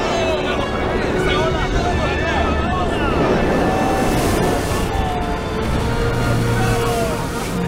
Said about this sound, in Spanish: ¡Cuidado, el viento está muy fuerte!